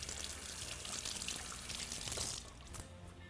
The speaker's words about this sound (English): Clean up my hands quickly.